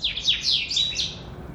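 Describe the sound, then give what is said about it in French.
Birds chirp in the early morning outside a large old house, a quick run of sharp, high-pitched tweets packed into the first second, then the calls thin out and fade over a faint, steady background hum. “صباح بكري في الدار عندي في لا ميزون ديالي حيت عندي الدار كبيره وقديمه كنسمعت لي زوازو الطيور”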